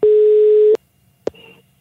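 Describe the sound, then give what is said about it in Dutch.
A telephone line tone sounds while someone is calling back: a single loud, steady mid-pitched tone lasts under a second and cuts off with a click. After a pause, another click is followed by a brief, faint tonal trace. “Karel en Peter besluiten haar terug te bellen, meteen als Barack Obama deze keer.”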